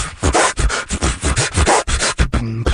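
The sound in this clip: A human beatboxer vocally imitates turntable scratching: many quick, rhythmic, rubbing bursts of breathy noise, ending in a short buzzy, tonal, voiced scratch.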